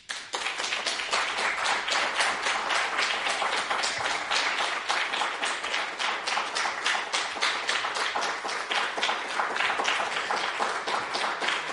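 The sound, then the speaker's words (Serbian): Applause after a poetry reading at the Kolarac Endowment hall: many crisp, individual claps that start abruptly and keep a lively, even rhythm at moderate volume, with no talking. “Žao mi je da prekinem ovaj aplauz.”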